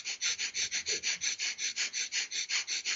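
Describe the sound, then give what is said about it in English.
Rapid nasal breathing in Kapalabhati breath practice, about fifteen quick, even pumps of air in and out through the nose in a steady rhythm, each a short breathy puff, moderately faint with no talk. “just really fast in and out to the nose, pumping my breath”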